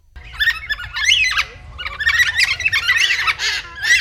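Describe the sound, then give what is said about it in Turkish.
Carnaby's black cockatoo, a critically endangered bird found only in southwest Australia, calling with loud, raspy, wavering squawks that follow one another almost without a break, with no talk. “Duyduğumuz bu ses, Carnaby'nin siyah kakadu adı verilen bir kuş türünün sesi.”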